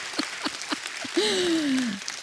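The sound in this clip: Scattered audience claps welcome a speaker, a few sparse, evenly spaced claps, followed by a sustained tone that slides downward in pitch over a soft background hiss.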